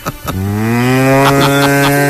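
A cow moos once, a long, loud, low tone that holds steady with a slight upward drift in pitch, after a few short knocks at the start.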